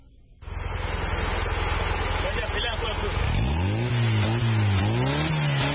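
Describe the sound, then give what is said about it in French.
The engine of a small blue off-road pickup truck, built from recycled parts, runs with a steady rough drone. A voice can be heard over the engine in the second half. “Fabriqué à partir de pièces recyclées, le petit camion bleu attire beaucoup de regards”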